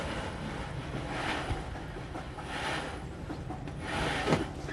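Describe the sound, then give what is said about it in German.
Creaking wood and rubbing rigging as the mainsail is hoisted on a sailing ship, a continuous rough, grinding noise that swells and fades a few times, with no talk. “Heiß auf, Großsegel!”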